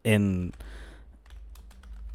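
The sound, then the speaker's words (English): Soft typing on a computer keyboard: a few faint clicks that follow a brief burst of voice, quiet and sparse. “I'm typing it”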